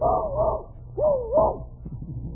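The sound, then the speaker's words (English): A small dog whines and yelps in a few drawn-out, wavering cries, with short pauses between them. “Nice little doggy, what a good dog.”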